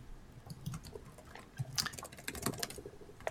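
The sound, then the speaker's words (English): Typing on a computer keyboard, a faint run of quick, irregular key clicks with no voices. “I will type it.”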